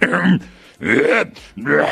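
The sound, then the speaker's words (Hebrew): A radio host clears his throat in three loud, rough, voiced bursts separated by short gaps, each with a groan-like tone. “זה נקרא חיכוך גרון, אתה צריך לעשות, בדרך כלל שדרים סוגרים את המיקרופון שהם עושים את זה”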